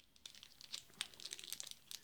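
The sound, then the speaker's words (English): Trading card pack wrappers being torn open, with quiet, irregular crinkling and tearing that breaks into many short crackles over about two seconds, with no voices. “So when you hear rap packs opening and stuff”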